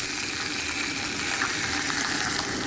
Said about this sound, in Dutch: Nou, de spek die begint mooi bruin te worden. Beslag erbij.